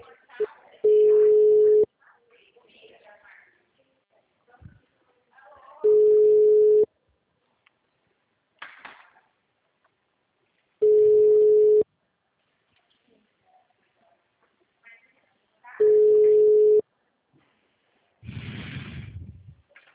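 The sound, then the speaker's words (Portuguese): Ringback tones of an outgoing phone call: four steady, evenly spaced beeps, each lasting about a second and separated by roughly four seconds of quiet, with low voices talking in the gaps and a louder burst at the end. “É, tô ligando pro cliente da Mirella, tá?”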